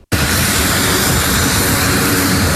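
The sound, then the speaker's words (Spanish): An airplane carrying aid supplies to Venezuela takes off from Puerto Rico with a loud, dense roar of engine noise that holds steady and strong throughout. “Así salía el avión que llevaba la primera ayuda a Venezuela desde Puerto Rico el miércoles en la tarde.”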